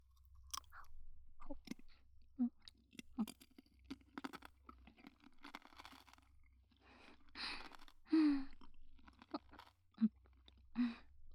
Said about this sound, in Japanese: じゃあ次は、このぶどう飴なんてどうかな？はい、どうぞ。ぶどうは種なしだから、全部食べられるよ。